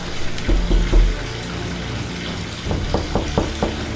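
Water running in a bathroom, a steady rushing flow with a few soft knocks and splashes scattered through it.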